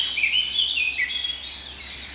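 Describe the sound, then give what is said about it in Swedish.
Woodland birdsong from blackcap and wood warblers, a continuous run of high, warbling and trilling phrases over a steady low background hum, with no voices. “Svartättan igen och grönsångarna är ju väldigt påtagliga här nu.”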